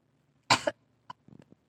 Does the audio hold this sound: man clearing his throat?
yes